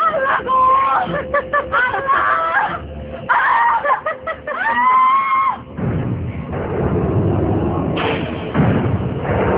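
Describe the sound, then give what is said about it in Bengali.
A woman screams at the top of her voice in a run of loud, high, wavering screams with short breaks between them. The screams give way to a broad, noisy rumble with thuds. “গলা ফাটিয়ে একটা চিৎকার দিল সে।”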